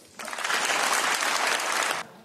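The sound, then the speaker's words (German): Applause for Mark Carney in the European Parliament in Strasbourg: a loud, dense burst of clapping that starts abruptly, holds steady for about two seconds, then cuts off. “Ja, es gab viel Applaus für Carney in dem Europäischen Parlament in Straßburg.”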